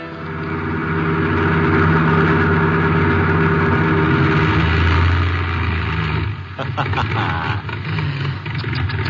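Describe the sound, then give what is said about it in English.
A car engine running out of gas: a loud, steady low rumble that turns ragged near the end, breaking into uneven sputters as it falters. “Running out of gas, and me such a big boy.”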